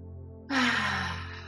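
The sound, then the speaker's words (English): A single quick breath pushed out through the mouth during a guided breathing exercise, heard as a breathy, sigh-like rush that starts abruptly and fades slowly, with no talk over it. “through the nose very slowly and then breathing out through the mouth quickly. So it would be something like this.”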